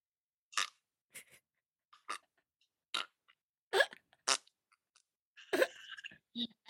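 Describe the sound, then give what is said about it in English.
A recorded fart with a strained, old-sounding quality comes as many short, irregular sputtering bursts separated by silence, the later ones louder and more drawn out. “that's a granddad fart. That is, wow. You know, quite strained. You know, it's an old sounding fart.”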